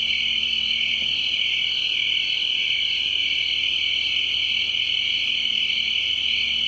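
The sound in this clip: A steady high cricket trill continues throughout as an even, unbroken chirping drone at moderate level, with no voices or other sounds.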